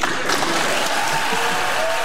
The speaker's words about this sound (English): Cheers erupting in the chamber.